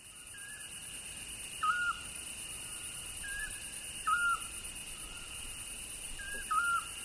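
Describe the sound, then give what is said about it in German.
Eurasian scops owl calling in the Rawanduz valley, Soran district, Iraq, in March: short, pure whistled notes repeated about every two and a half seconds, with fainter answering notes between, over a steady high insect buzz. “Zwergohreule. 20. März 2003. Ravandustal, Distrikt Soran, Irak.”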